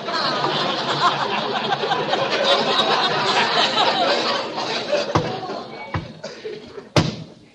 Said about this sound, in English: Hey, look, Costello. There's a panel sliding open in that wall.